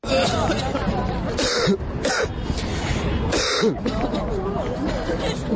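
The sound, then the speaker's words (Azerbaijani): Young protesters lying in a medical university courtyard cough repeatedly during a demonstration over the environment and healthcare. Many overlapping coughs and throat-clearing sounds rise from a crowd murmur. “Gənclər Tibb Universitetinin həyətində uzanıb öskürməyə başlayıblar.”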